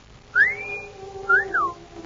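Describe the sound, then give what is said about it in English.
A man whistles in admiration at a woman with two loud, clear wolf whistles. The first sweeps upward and holds a high note, and the second rises sharply and then drops away. “whistle was for the girl”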